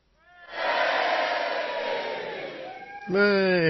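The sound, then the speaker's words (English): A crowd cheering and shouting as a played sound effect, swelling up quickly and holding loud and steady before easing slightly, then a single voice cuts in at the end. “Big cheers for you there.”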